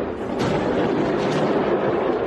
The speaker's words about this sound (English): New video shows a fireworks factory exploding into a massive fireball in Malta. Take a look. This is the moment an explosion rocked a fireworks factory in Malta.